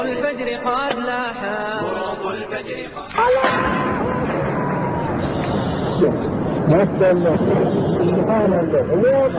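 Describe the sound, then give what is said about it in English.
An explosion destroying a 1,500-year-old Buddha statue: after people talk, a sudden broad blast breaks into a sustained rumbling roar, with voices continuing over it. “That was the Taliban destroying a 1,500-year-old statue of Buddha.”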